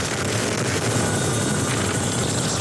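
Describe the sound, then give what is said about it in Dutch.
Dutch Chinook helicopter helping to fight a huge wildfire in Belgium, heard as a dense, unbroken roar of rotor and engine noise that stays constant in loudness throughout, with no voices. “Dit is het geluid van de Nederlandse Chinook-helikopter die helpt bij het blussen van de grootste natuurbrand van de afgelopen 100 jaar in België.”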